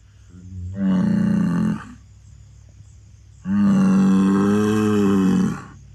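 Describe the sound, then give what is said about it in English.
A Tauros bull in the Velebit Mountains of Croatia gives two loud, deep, drawn-out bellowing grunts, the second longer than the first, with quiet gaps between them. “This rather intimidating noise quickly gaining ground towards me, and the reason why I'm currently questioning my life choices, is the grunt of a Tauros bull.”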